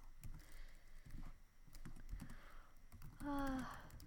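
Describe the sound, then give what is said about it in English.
Soft, faint clicks and taps come in uneven bursts as someone writes a note down, with quiet background noise between them. “Hold on, I gotta write that note down.”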